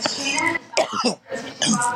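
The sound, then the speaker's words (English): Coughing fit as someone chokes, a few harsh, raspy coughs in quick succession with a throaty catch between bursts. “Ooh, excuse me, choking.”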